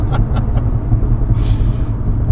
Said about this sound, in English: For those listening, we just had 15 seconds of 70 miles an hour.